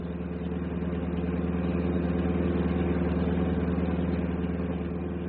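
Steady drone of a bus engine running while the bus is driven, a dense low rumble with an even, slightly pulsing texture that holds constant throughout, with no talk over it.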